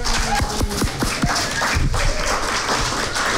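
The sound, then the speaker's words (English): An audience at a live reading night on Market Street, Geelong, applauds with dense, lively clapping that carries on at an even level from start to finish. “everybody, put your hands together for Mel.”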